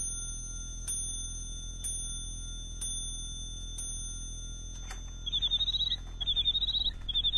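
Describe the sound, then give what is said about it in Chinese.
A bird-song chiming clock strikes four bright, evenly spaced chimes, then falls quiet briefly before quick, high, bird-like chirping trills take over in a few short bursts, all fairly soft. “你替我把这座鸟鸣钟送给詹天佑，这是太后赏给我的”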